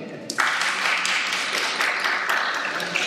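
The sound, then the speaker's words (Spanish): Audience applause breaks out suddenly at a workplace talk and continues as a dense, steady patter of clapping until the end. “Un aplauso,”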